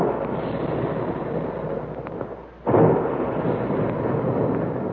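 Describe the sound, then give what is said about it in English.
Big guns boom, the kind said to shoot puffed wheat and puffed rice at the Quaker cereal plant. A steady roaring rumble dips, then one heavy blast breaks in and rolls on loudly. “And there go the big guns, reminding us all that puffed wheat and puffed rice actually are shot from guns right in the Quaker plant.”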